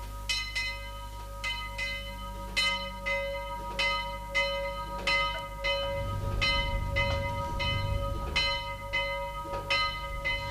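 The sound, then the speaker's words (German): Church bells ring for the last rosary in a steady, bright peal of many overlapping strikes at an even pace. A low rumble joins in the second half. “Es läutet schon zum letzten Rosenkranz.”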